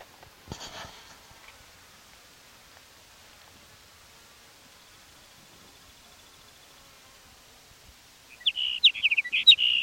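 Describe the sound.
Sage sparrow song: a quick run of thin, high chirps arrives near the end, after a long stretch of soft hiss and a brief scratchy noise at the start.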